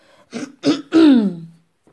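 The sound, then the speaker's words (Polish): Throat clearing performed by a voice playing a wolf character: three short gruff bursts, the last one longer and voiced, sliding down in pitch before fading, with no other sound. “Wilk chrząknął i wyrecytował.”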